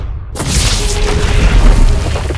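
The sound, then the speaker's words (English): An explosion blasts open penitentiary doors: after a brief silence, a sudden loud boom breaks in and rolls on as a dense, sustained roar that stays heavy to the end. “shattering the penitentiary doors. Three guards died in the explosion.”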